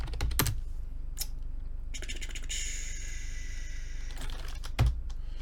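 Typing on a computer keyboard: faint, irregular clicks of keystrokes come in short scattered bursts with pauses between them, over a quiet background hum.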